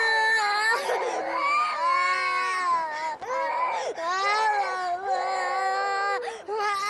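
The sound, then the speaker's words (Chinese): A child crying hard, a continuous high wailing with strained, sobbing breaks and brief dips in the crying, loud and sustained throughout. “哭了，哭啊！”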